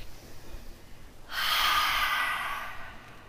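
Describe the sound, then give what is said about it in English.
A single airy exhale through the mouth during a bridge exercise, a soft rushing breath lasting over a second and fading out over faint background noise. “Let all the exhales come out of your mouth here for this whole bridge.”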